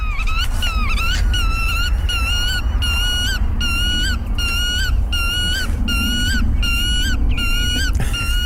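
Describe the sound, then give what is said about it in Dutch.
A black-tailed godwit calls over and over in loud, nasal, rhythmic phrases that repeat at a steady pace above a constant low background rumble. “Zullen we even naar hem of haar luisteren, de grutto?”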